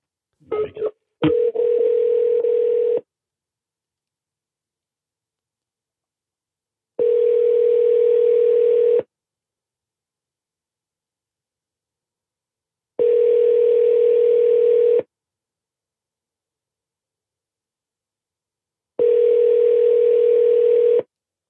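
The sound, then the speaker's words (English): A telephone tone sounds after a few quick dialing beeps while a call is placed, then repeats as four steady two-second tones separated by silent gaps of about four seconds. “Here we go. Let's dial it.”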